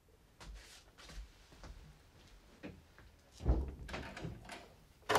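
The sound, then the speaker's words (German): A door is shut and locked in a radio drama scene, heard as a series of light clicks, taps and knocks with one heavier thud midway and a sharp knock at the end. “Machen Sie die Tür zu und schließen Sie ab.”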